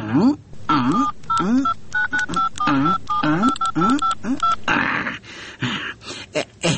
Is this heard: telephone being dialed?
yes